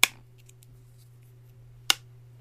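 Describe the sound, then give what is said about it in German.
Small high-power magnets are thrown onto a pane and stick, producing two sharp, isolated clicks about two seconds apart. Between them there is near silence over a faint low hum. “Magneten vorne dran, diese kleinen Hochleistungsmagneten. Ja, und das tatsächlich, wenn man das auf die Scheibe wirft, ja, ich weiß, in einem Podcast ist das ein bisschen blöd, weil man sieht es nicht, aber vielleicht hört ihr es ja.”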